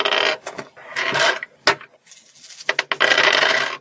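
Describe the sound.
Dice rattle and clatter during a tabletop role-playing game in several short, sharp bursts, some quick and some longer. Brief quiet gaps separate them.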